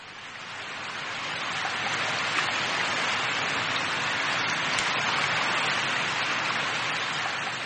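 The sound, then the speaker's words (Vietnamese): Steady rain pattering through the night on a mountaintop in Tây Ninh, Vietnam, a dense, unbroken hiss of drops that rises slightly at the start and then holds even, with no voices. “Mưa tí tách suốt đêm, tôi đắp hai cái mền mà cũng không hết lạnh.”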